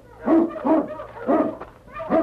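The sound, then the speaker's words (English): A large dog barks in the snow near rocks, giving several deep, hollow woofs in an uneven rhythm, with no voices. “as they neared the rocks, the great dog King sensed death in the air. What is it, King, huh? All right, fella, you lead the way.”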